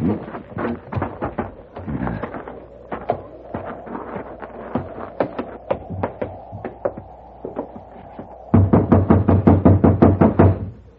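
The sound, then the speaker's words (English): Knuckles rap again and again on a locked wooden door in a long run of quick knocks, some grouped in short bursts, and the final volley grows louder and steadier. “No, it's locked. You'll just have to keep knocking till he wakes up.”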